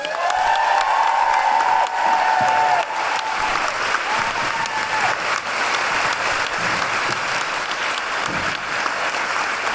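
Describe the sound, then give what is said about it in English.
An audience gives steady, loud applause with cheers, whoops and whistles to welcome singers from a feminist singing workshop. The clapping stays dense and continuous throughout. “Could you please put your hands together and make wonderful yoo-hooing noises for Jane York, accompanied by Madalena from Big Feminist Sing!”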